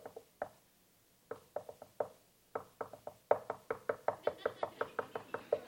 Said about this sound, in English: That's God knocking. But you keep saying no. This is what's so great about God. He doesn't stop knocking.